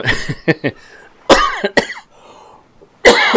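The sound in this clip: Harsh, raspy coughs come in several separate bursts with short gaps between them, mixed with some throat-clearing. No one talks.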